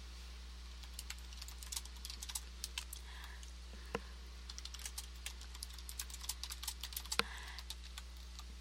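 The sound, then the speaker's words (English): Irregular clicks and taps of typing on a computer keyboard continue in quiet, uneven bursts over a faint, steady low hum. No voices are heard. “I'm trying to type and talk all at the same time.”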